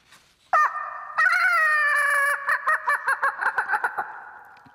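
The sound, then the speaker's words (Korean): A rooster crows loudly outside a window around 5 a.m. on a hot night: a short call, then a long, strained crow that sustains and breaks into a rapid series of pulsing notes before fading. “그것도 그냥 닭이 아니었습니다. 마치 마이크를 잡은 것처럼 쩌렁쩌렁 울리는 닭.”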